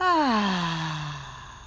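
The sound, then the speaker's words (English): A single loud, emphatic exhale from a deep breath, voiced like a sighing groan, its pitch sliding steadily downward as it fades over under two seconds. “Deep breath in and out.”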